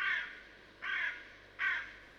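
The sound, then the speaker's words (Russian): Three harsh caws from a crow ring out alone at an even, unhurried rhythm. Each call is a loud, rasping burst, with brief quiet between them. “Ворона. Ее не узнать невозможно.”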